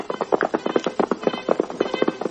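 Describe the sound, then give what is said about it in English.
Hooves of a horse ridden toward a charging buffalo: many rapid, evenly spaced clip-clop beats in a steady galloping rhythm, loud and continuous throughout. “was another horse approaching, the wild cry of an oncoming rider.”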